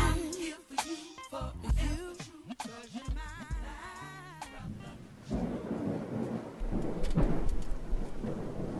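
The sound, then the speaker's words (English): A thunderstorm from Hurricane Matthew, with deep rumbling booms of thunder and a steady hiss of rain that grows heavier and more continuous in the second half. “Hurricane Matthew, lightning and thunder.”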